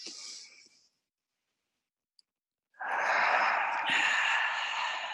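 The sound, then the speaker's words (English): A deep inhale and exhale during guided group breathing: a soft breathy intake fades into silence, a tiny click sounds, then a long, loud, airy exhale carries steadily to the end. “How about we just take a big inhale right now together?”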